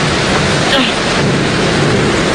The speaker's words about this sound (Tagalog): May bagyo siguro ay.